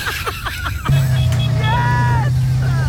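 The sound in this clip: An engine roars as a ute does a burnout, settling into a loud, steady drone that cuts in after a short stretch of talk and holds to the end.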